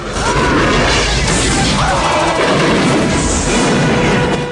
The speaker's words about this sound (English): Hamid helps fire a grenade launcher that destroys a Russian jeep.